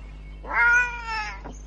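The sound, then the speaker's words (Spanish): A captured wildcat, lured into a trap with valerian, gives a single drawn-out meow, harmonic and fairly loud, followed by a brief faint sound. “Es el duodécimo gato montés capturado por el equipo. Ahora que tenemos al gato, vamos a anestesiarlo.”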